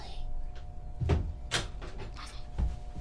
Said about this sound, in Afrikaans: Ok, maak die deur saggies toe.